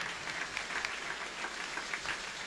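Applause from a church audience, a steady, dense wash of clapping that holds at an even level throughout with no pauses.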